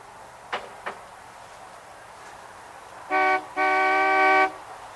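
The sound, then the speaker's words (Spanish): A car horn sounds as a sheriff's car arrives: a short toot followed by a longer, steady honk, loud and clear, preceded by two faint clicks. “El sheriff llega en su coche.”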